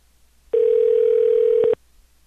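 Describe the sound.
Telephone dial tone heard while placing a call to a dental office line: one steady, unbroken tone lasting just over a second, sounding alone and ending abruptly.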